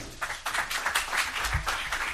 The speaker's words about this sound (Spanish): Los aplausos no son de los periodistas, son de familiares y amigos que estaban situadas en las primeras filas de ese salón del Hotel de Barcelona, donde ha sido la rueda de prensa